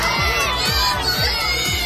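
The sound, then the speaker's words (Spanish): Crowd shouting during the arrests of dozens of students protesting at a university encampment in Los Angeles. The shouting is loud and dense throughout, with a steady pulse of low thumps underneath. “Este es el sonido de las detenciones de decenas de estudiantes de la Universidad de California en Los Ángeles,”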